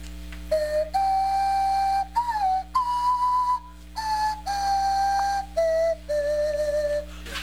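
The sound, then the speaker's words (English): Breath is blown across the mouth of a pop bottle while the tongue wiggles, giving a whistle-like melody of about eight sustained notes at changing pitches with slight wavering, clear and steady between short pauses. “You're going to take a deep breath and blow across the pop bottle while this is in front of your mouth and wiggle your tongue, and that's all you do. Okay, that's a noise.”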